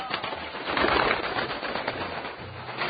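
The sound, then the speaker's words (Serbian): Pigeons of several Sombor breeds over the town, heard as a continuous rustling wash with soft low cooing tones, moderately loud and without voices. “Golubovi eto lete Somborom”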